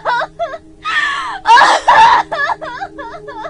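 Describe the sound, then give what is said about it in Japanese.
A middle-aged woman breaks down sobbing and wailing, her voice wavering and choking in uneven bursts. Two louder, strained wails rise in the middle, and shorter whimpering sobs come before and after them. “泣き崩れるおばさんを目の前にして、俺たちは何も言うことができなかった。”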